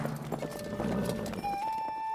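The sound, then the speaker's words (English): Horse hooves clip-clopping as a rider spurs his horse and sets off into the countryside: quick, rhythmic hoof beats, with sustained tones running beneath and a clear high steady note entering partway through. “dug his spurs into the side of his horse and rode out into the country to find the Green Chapel”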